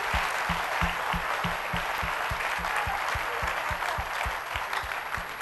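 An audience at a church service claps in unison, giving many sharp, evenly spaced claps at a quick, steady beat.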